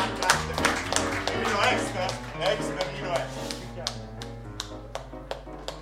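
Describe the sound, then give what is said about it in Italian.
Sparse, uneven handclaps from an audience at a social centre event, many sharp isolated claps tapping along beneath ongoing talk rather than a full burst of applause. “No, guardavo il tuo applauso, che è una roba imbarazzante.”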